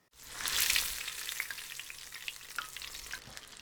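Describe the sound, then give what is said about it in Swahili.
Tofu pieces fry in hot oil with a bright sizzle that swells quickly at the start, then settles into steady crackling with many small pops. “Rudia mchakato huu na ukaange vipande vingine vya tofu vilivyosalia.”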